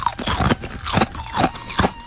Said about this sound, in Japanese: 今乾きもん祭りになっております。じゃあいただきます。